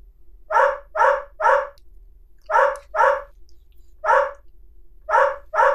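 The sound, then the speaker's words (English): Dog barking: eight sharp, loud barks in short bursts, a quick run of three, then two, then one, then a final pair, with no talk over them. “I think that's a dog.”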